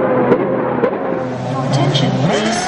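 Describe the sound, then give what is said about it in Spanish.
Formula 1 race cars roar at a race, high engine whines rising and passing over a steady rumble, with people's voices mixed in underneath. “El ambiente de una carrera de Fórmula 1 engorda.”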